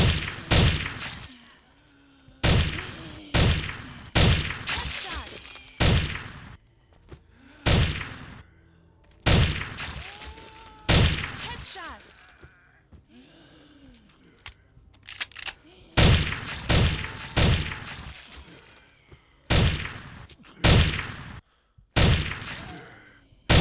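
Gunfire in a video game: many sharp, loud shots in irregular bursts and single cracks, separated by brief lulls, with faint thuds between them.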